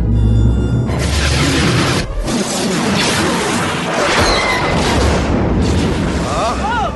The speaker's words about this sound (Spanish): Ese disparo proviene de la Estrella de la Muerte. ¡Está en funcionamiento!